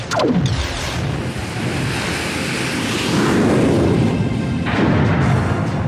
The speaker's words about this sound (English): Now, fire phasers and engage hyperdrive.